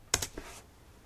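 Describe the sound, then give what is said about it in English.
Typing on a computer keyboard, a brief burst of a few quick, crisp key clicks that fade into quiet. “It'll sound very strange at first, so I'll type the strange name for you guys.”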